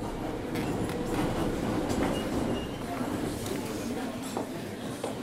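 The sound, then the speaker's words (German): An underground metro train riding through the Minsk metro: a steady, loud rumbling roar of the moving carriage with faint rattling and clacking. Indistinct voices murmur underneath throughout. “Ich fahre mit der Minsker U-Bahn hin.”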